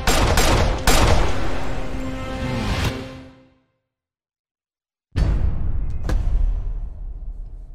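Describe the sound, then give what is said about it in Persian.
Gunfire from blank rounds fired by an intelligence service weapon: several sharp, loud shots in a rapid burst that fades out, then a long silence before a second burst of loud cracking reports. “خیلی ببخشید، تیراش مشقی بود، اسلحه سرویس اطلاعاتی.”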